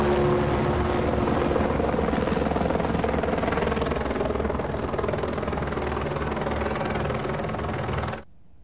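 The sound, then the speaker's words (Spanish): A police aircraft takes off with a loud, continuous engine and rotor drone that stays steady and heavy throughout, then cuts off abruptly at the end. “Unos agentes los guían hasta el aparato, donde ambos suben para luego iniciar el despegue.”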